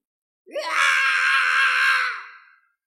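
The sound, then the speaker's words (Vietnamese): A man screams in pain, an old sect leader with disheveled hair and blood at the corner of his mouth, struck during a fantasy battle. One loud, sustained cry of about two seconds starts abruptly and tails off, with no talk. “Lão giáo chủ Kim Cương Môn hét lên, tóc tai bù xù, khóe miệng mang theo vết máu”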